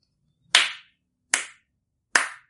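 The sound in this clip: Three light hand claps, evenly spaced and crisp, each a sharp snap that dies away quickly, alone against silence.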